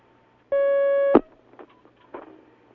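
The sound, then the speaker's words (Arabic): A telephone line tone as a call comes into a phone-in question session: one steady, sustained beep lasting about half a second, cut off by a sharp click and followed by faint, scattered line noises. “هناك مكالمة. هناك مكالمة، تفضل.”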